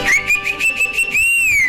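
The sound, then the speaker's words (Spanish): A person whistles a tune in a ranchera-music setting: a bright, clear, high whistle with wavering sustained notes, ending on a longer phrase that swells and then falls away. “yo no les canto, pero yo sí les voy a chiflar.”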